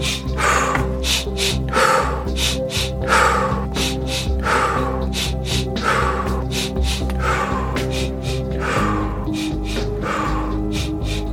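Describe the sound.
A guided breathing exercise with many sharp, rhythmic breaths repeating throughout: two short inhales followed by an exhale through the mouth, over steady sustained background music tones.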